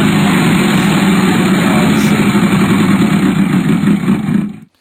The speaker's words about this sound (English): Spin that wheel.